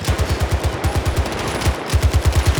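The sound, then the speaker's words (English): An M60 machine gun firing in a video game: loud, rapid, evenly spaced rounds in two long bursts separated by a brief break. “But I'm a sniper with the M60.”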